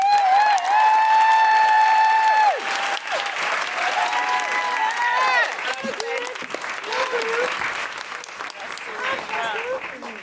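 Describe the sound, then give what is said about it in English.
Studio audience applause and woohooing greet a comedian: a long, sustained whoop rides over loud, steady clapping at first, then further shorter whoops and cheers break out as the dense applause continues. “Please put your hands together and make general woohooing noises for Aisling B.”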